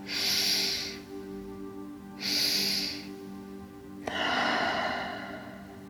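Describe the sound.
Breathing from a guided breathing exercise: two hissing inhales separated by a pause, then a longer, audible exhale that fades out.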